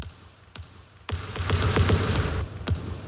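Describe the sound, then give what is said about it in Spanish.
A basketball segment jingle built from sharp ball bounces: a couple of isolated thumps, then a denser, louder run of bouncing over a low rumble, closing with one more strong bounce. “Sintonía de baloncesto”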